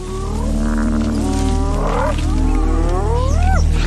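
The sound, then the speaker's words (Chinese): Lions feeding in the wild, their deep growling and moaning calls carried over steady loud background noise, with several drawn-out tonal cries that bend upward in pitch. “等等，看那边，狮子又开始吃了。”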